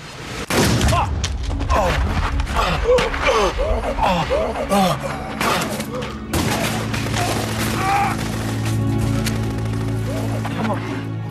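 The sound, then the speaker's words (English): Gunfire in an audio drama as characters shoot from cover behind a black BMW: many sharp, rapid shots and heavy booms in a loud, dense volley lasting about eleven seconds, with voices mixed in. “Decker and Munro fire from the cover of the black BMW. Bryant takes a bullet to the neck.”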